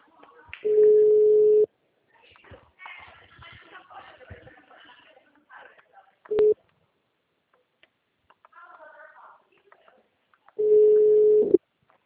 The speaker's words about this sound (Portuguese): A gente tentou fazer uma ligação para você, tá? E aí eu não consegui falar, que caiu a ligação aqui.